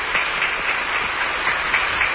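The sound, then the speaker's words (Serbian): Long, steady applause from members of parliament standing in a chamber, a dense, even wash of many hands clapping with no pause. “Svi poslanici su ponovo ustali i dugotrajnim aplauzom odobravaju”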